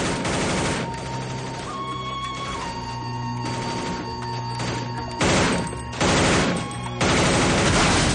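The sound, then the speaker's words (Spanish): Heavy gunfire rattles through a shootout at a doorway in a 1999 action thriller, dense continuous bursts with sharper, louder blasts in the second half, over a sustained musical score. “Se acerca lentamente hacia la puerta donde está uno de los dragones disparando.”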